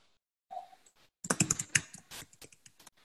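Typing on a computer keyboard to enter text into a chat box: a couple of isolated faint taps, then a quick, uneven run of key clicks.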